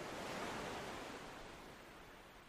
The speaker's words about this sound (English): You are sitting on a beautiful, deserted beach.